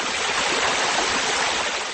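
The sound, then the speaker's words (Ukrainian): Small fountains splash at the foot of Catania's Elephant statue, a black volcanic-stone figure topped by a white granite obelisk in the Duomo square, giving a steady, even rush of falling water with no pauses. “Внизу хлюпочуть невеличкі водограї.”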